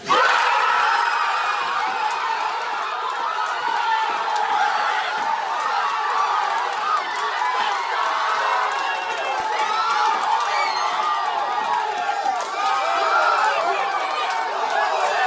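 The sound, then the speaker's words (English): Pelicans ticket office staff cheer and shout as New Orleans wins the number one draft pick. The mass of excited voices stays loud and continuous from start to finish. “When it was official that New Orleans was getting the number one pick, the Pelicans ticket office lost its collective bleep.”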